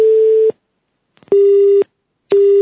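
Telephone busy signal on an outgoing call: three loud, steady mid-pitched tone bursts, each about half a second long, separated by equal silent gaps, with a few faint clicks just before the second tone.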